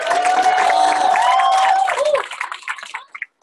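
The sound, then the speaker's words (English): An audience cheers and claps for the speaker's mother at an evening honor event. A loud sustained whoop rides over the crowd for about two seconds, then the cheering thins into scattered claps and fades. “Everybody cheer.”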